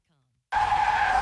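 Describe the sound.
A car's tires screech in a sustained, steady high-pitched skid that cuts in abruptly after a moment of silence, used as a car-crash sound effect.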